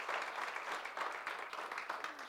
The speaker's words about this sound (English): Can you give God a hand clap of praise this morning?